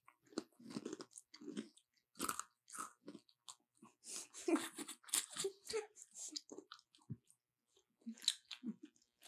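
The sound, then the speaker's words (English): Crunchy bites into a durian cookie right next to the microphone, followed by many crisp, uneven chewing crunches with short pauses between them. “Where people get the sound of you biting it? Here, hold on. Right next to the microphone.”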